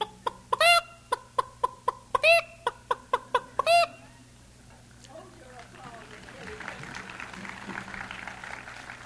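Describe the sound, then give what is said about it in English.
A voice imitates a hen clucking proudly after laying an egg: a rhythmic run of short, bright clucks punctuated by three louder, sharp squawks, then a stretch of broad, rising noise. “The hen's really proud after she's laid an egg.”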